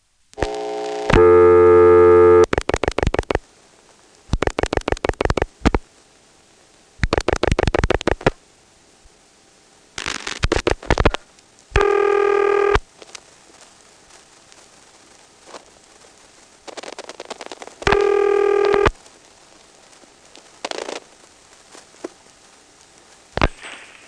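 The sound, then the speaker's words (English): Electromechanical telephone exchange switching as the digits 7-2 are dialed through a second selector with the register sender dropped: several bursts of rapid relay clicking alternate with loud buzzing tone bursts, with no voices. “Now let's drop the register sender and try dialing 7-2.”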